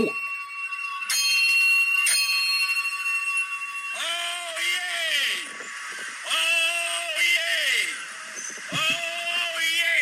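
A town crier in Southwold rings a handbell in bright, ringing strokes, then calls out three long, loud, drawn-out sung cries of oyez, each held steady before falling away, with the bell sounding again between calls.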